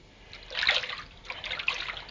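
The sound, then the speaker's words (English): Soapy hands rinsed under a running tap: a soft, splashy wash of water with two gentle surges, fairly faint, with no voices. “Good rinse, get all the soap off.”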